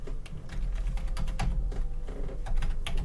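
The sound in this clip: Quick, light clicking from a computer mouse mixed with keyboard-like tapping, a steady run of small sharp clicks with no voices.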